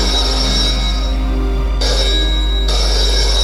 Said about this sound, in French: le téléphone sonne